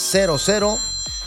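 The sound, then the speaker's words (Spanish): A mobile phone rings with an incoming call, its electronic ringtone playing a few short tones that each slide downward in pitch, clear and fairly loud. “Me sacó de onda aquí la llamada. Perdón, déjeme apagar el teléfono.”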